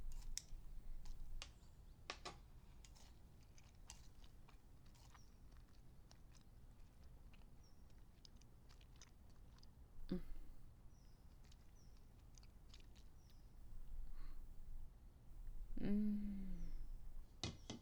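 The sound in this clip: Watermelon is chewed and bitten in faint, wet crunches and soft clicks scattered through the quiet, with a few louder bites standing out now and then.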